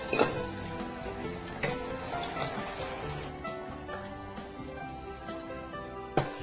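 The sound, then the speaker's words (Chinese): Battered food sizzles as it deep-fries in hot oil, the pieces dipped in a thin coat of flour batter. A dense, steady crackle and hiss runs throughout, with a few sharper pops standing out. “油，好可怕哦！你看那个油炸”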